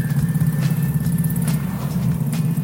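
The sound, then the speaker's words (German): Engine drone from a moped with a passenger seat, a steady, dense low rumble that holds throughout with little change in level. “Ah, das ist so ein Doppelmoped. Hier ein Moped mit so einem Beifahrersitz.”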